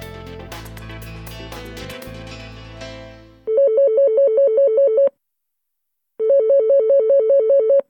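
A telephone rings as a call is placed to a youth hostel: music fades out, then two bursts of loud, warbling electronic ringing come with a silent pause between them.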